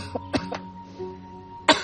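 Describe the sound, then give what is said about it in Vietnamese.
Coughing from a mother still ill with a lingering old sickness: a few short, dry coughs followed by a louder, sharper one at the end, over a steady low hum. “Sao mẹ ho dữ vậy?”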